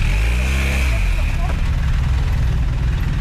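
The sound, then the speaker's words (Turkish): Engine of an unplated, stolen motorcycle fleeing police through traffic in Istanbul. A loud, heavy low rumble has a pitch that sinks early on, then holds steady under dense noise until the end. “Şişli'de polisin dur ihtarına uymayan bir motosikletli kaçmaya başladı. Polisler de peşine düştü. Kullandığı motosiklet plakasızdı.”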